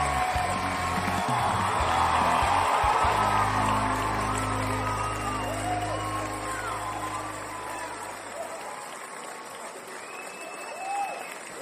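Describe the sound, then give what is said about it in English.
Audience applause with a few whoops and cheers welcomes a show host, a dense steady roar of clapping over a low sustained musical tone that gradually thins and fades toward the end. “Ladies and gentlemen, put your hands together and help welcome your friend and mine, Kevin White.”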